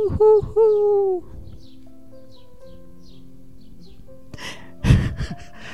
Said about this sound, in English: It's evening, and you can hear the night sounds outside. There's some evening birds. Maybe an owl.